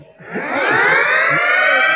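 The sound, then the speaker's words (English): An alarm going off as a reminder, a loud siren-like tone that sweeps upward and then holds steady and continuous with no talk over it. “Yeah, that was my alarm. I got to give my dog a medicine.”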